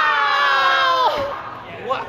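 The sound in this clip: A live studio audience shouts in protest: a sustained group outcry of many voices, one pitch sliding downward partway through, followed by a shorter second burst of shouting.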